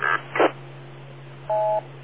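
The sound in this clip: A radio microphone gives a faint electronic transmit beep: two brief noisy bursts, then a short, steady two-tone beep.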